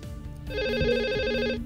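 A telephone rings with an incoming call, a single electronic ring of about one second, a bright steady tone rising out of a low background.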